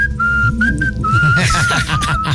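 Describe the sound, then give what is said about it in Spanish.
Whistling plays in the background, a thin high melodic tone stepping between a few pitches, with people talking and laughing over it. “si van a poner silbidos de fondo, pónganle.”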